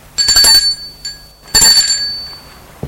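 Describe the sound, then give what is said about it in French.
An intercom bell ringing at a door: two bright, metallic rings with a steady tone, separated by a short pause, loud and with no voices. “Il sort de voiture et va sonner à l'interphone.”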